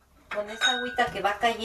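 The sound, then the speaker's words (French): Dishes clinking as they are washed with recycled dishwater at a home in a water-short Mexico City suburb: a few sharp, ringing ceramic and metal knocks in quick succession, each leaving a brief bright resonance. “recycle l'eau de vaisselle pour dégraisser les autres plats”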